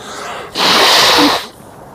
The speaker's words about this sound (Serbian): Dok upotrebim maramicu, sledi šmrk. Mrk.